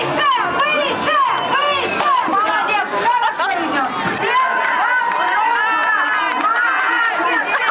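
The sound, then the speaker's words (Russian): Spectators shout and cheer for the participants at a pole-climbing contest with a 3-metre prize pole. A dense, continuous babble of many excited voices stays loud throughout. “Зрители горячо поддерживали каждого участника.”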